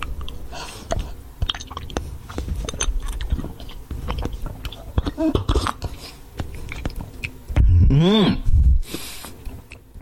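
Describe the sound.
Wet gulping and swallowing as raw eggs, three cracked together, are drunk straight down. Soft squishy clicks and swallows repeat at an irregular pace, followed by a short, louder voiced burst near the end.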